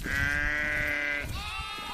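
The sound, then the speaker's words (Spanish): A sheep bleats on a mountain pasture: one loud, sustained, wavering cry is followed straight away by a second call at a different pitch. “quedamos con Alejandro a primera de la tarde para acompañarle hasta el monte donde tiene las ovejas.”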